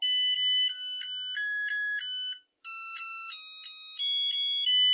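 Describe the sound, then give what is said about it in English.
A Zojirushi rice cooker plays its rice-ready tune, a bright electronic melody of clear beeping notes that changes pitch from note to note, with a brief gap partway through. “That's the tune a Zojirushi rice cooker plays once the rice is ready.”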